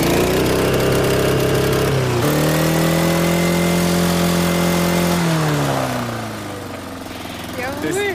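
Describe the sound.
An engine runs hard against its rev limiter, a loud, steady buzzing drone with a couple of abrupt pitch drops, easing off and quieting toward the end.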